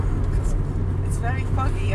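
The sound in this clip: Car driving in fog, a steady low engine and road hum running throughout beneath people talking.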